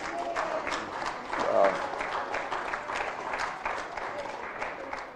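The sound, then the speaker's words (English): Applause from a church audience: dense, steady clapping from many hands that fills all five seconds at an even level, with no voices heard over it. “I thank you for the applause.”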